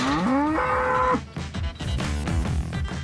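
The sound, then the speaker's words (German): A bull on a cattle farm gives a single deep, loud moo that climbs in pitch and then holds, followed by rougher, lower sounds. “So, da ist unser Bulle.”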